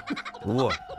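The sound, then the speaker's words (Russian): A kookaburra calls: a few short chattering notes, then a loud harmonic squawk that arches up and back down in pitch, with brief fainter notes after. “Кто это? Кукабара. Кукабара. Кукабара, да. Птица, да?”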